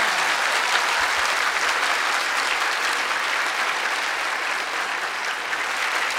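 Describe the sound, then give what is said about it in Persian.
A crowd at a religious devotional gathering claps continuously, a sustained, even wash of many hands at steady loudness throughout six seconds. “مادر ما آمده برای بی بی قشنگ دست بزن”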